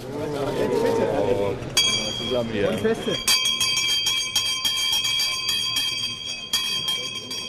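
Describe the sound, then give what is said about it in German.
An old stock exchange bell rung on the trading floor as a bicycle maker's shares get their first price. A voice comes first, then a bright, high metallic ringing with rapid repeated strikes carries on loudly to the end. “Die Fahrradbauer sind zufrieden und sie dürfen die alte Börsenglocke läuten.”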